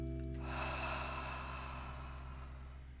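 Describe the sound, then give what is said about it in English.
Soft meditation breathing, in through the nose and out through the mouth: a faint, airy, drawn-out breath that swells and slowly fades over a steady, quiet musical drone, with no talk. “Again, inhale through the nose and exhale through the mouth.”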